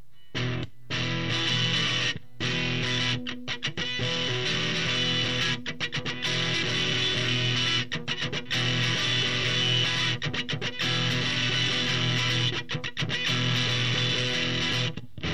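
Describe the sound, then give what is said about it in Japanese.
Harsh distortion comes from a FET stage with the vacuum tube gain set to maximum: a thick, buzzing harmonic tone in sustained bursts, broken by many abrupt short silences, moderately loud. “今ちょっとフェットの方で歪ましているので、まあフェットの音も乗っているといった感じになります。”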